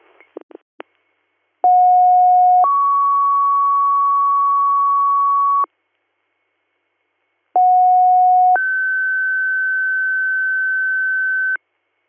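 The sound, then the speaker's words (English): Fire and EMS dispatch alert tones page second- and third-due units for a medic call. After a few brief clicks, two loud sequences of steady pure tones play alone, each a short lower tone stepping up to a longer, higher tone. “Gravelly NOS, second due, third due tones from medic, Waverly”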